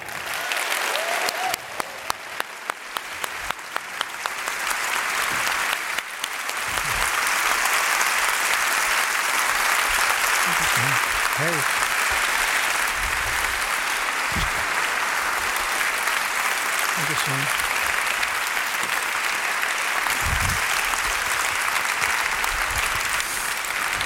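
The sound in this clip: Long applause from an audience welcoming an author to the premiere of his new book, a sustained and dense clapping that swells early and then holds steady for over twenty seconds.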